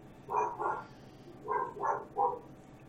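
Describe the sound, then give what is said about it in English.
Faint barking from a mixed-breed dog, part Labrador, part pit bull, part German Shepherd: a few short, muffled barks in two small bursts against a quiet background. “You can hear my dog in the background, of course. She just chooses now to start barking.”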